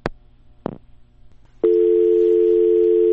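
Telephone line tone after a call is cut off: two sharp clicks, then a loud, steady, unbroken tone that holds to the end.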